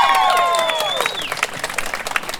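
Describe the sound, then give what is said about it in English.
Crowd applause and cheering at a community march: a dense, steady patter of clapping, with high sliding tones riding over it during the first second. “please give yourselves a round of applause.”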